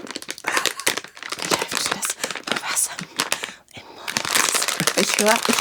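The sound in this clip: Packaging greedily torn open, a loud, dense crinkling and ripping that runs almost without pause, with a short dip just past the middle.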